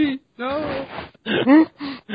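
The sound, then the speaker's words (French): A person mock crying, a voice imitating sobs with a few wavering, whimpering vocal bursts separated by short pauses, moderately loud. “Je pleure comme les gens en Corée du Nord.”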